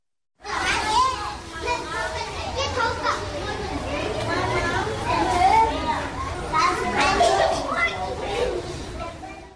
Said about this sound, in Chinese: 这就是在一个普通的学前的融合教室里边，每天孩子所接触到的声音环境。